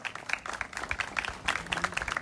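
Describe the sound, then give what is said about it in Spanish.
Applause at a public tribute ceremony in Argentina: a steady, fairly faint patter of many hands clapping, with no talk. “Este aplauso es para vos y en vos al querido Tim.”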